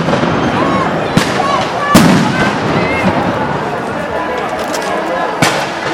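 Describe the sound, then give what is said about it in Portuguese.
Police bombs explode and rubber bullets fire at a street protest. Three sharp, loud blasts punctuate a constant crackling din, with voices talking underneath. “Mais bomba. Tem 3, 4 bombas de uma vez. Nossa, um monte de tiro de bala de borracha.”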